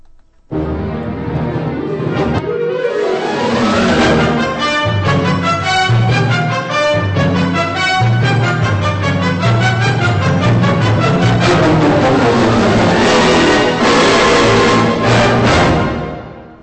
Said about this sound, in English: That's it. That's the sound of the KU Symphonic Band as directed by Robert E. Foster.